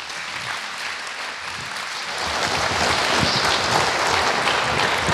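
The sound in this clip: Audience applause welcomes a speaker on stage for a talk on animatronics and robots in movies. Dense clapping starts moderate, then swells louder midway and holds steady.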